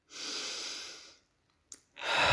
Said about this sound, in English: Let's take a breath there.